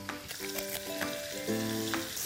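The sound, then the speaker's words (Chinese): Bamboo shoots and cured pork stir-fry in a wok with a little sugar and salt, giving a steady crackling sizzle broken by the scrape and toss of stirring, with no talk over it. “翻炒几下以后呢，准备装盆儿。观众朋友，这道竹笋炒腊肉就做好了。”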